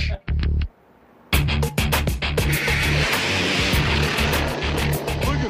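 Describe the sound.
Loud engine roar from a drag bike racing down a rough drag strip at full throttle. A few short bursts come first, then a sustained, dense roar begins and holds until the end.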